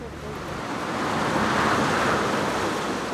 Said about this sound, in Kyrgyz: Кан жолдун боюнда турган заңкайган учактын жанында шаркырап суу агып турат.